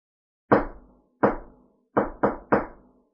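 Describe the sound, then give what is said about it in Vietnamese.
Knocking on a door in a pattern of two long and three short: two sharp raps spaced well apart, then three quicker raps in a row. All five are crisp and clear, with silence between them. “Hầu Tái Lôi tiến đến gõ cửa”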